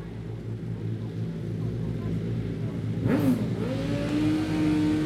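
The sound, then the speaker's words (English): A racing motorcycle sets off at the start of a TT road race. Its faint engine note sweeps upward, then holds a steady higher tone over a constant low background hum. “Riders are cocking their legs over the bikes as we speak. And in the distance, you can hear that the first rider on the road is off.”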